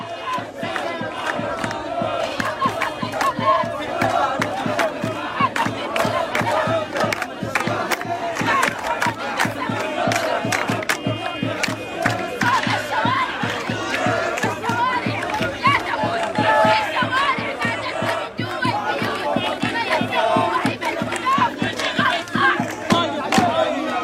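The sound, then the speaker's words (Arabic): Protesters chanting slogans at a street demonstration on Al-Mouna Street: a dense crowd shouts loudly and rhythmically without pause, with the chant pulsing steadily and many voices blending into a continuous roar. “وردت مشاركون في تظاهرات بشارع المعونة هتافات”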